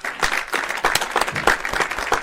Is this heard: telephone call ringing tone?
no